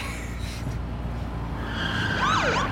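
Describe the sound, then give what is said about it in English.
A police car siren sounds while a car drives fast, its engine humming steadily. Near the end, wailing sweeps of the siren cut in and the sound grows louder. “It's the cops! Gun it! I'm not gonna outrun the cops!”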